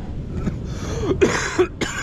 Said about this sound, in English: For the first time I actually considered editing this video and cutting out this cough, because that's not pretty.